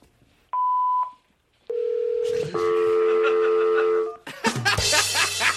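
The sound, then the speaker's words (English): Telephone tones: a short high beep, then a steady lower tone, then a sustained dual-pitched dial tone that cuts off into a burst of noisy sound. “Okay, so we got a call. Okay, there we go. We're ringing up Aristotle.”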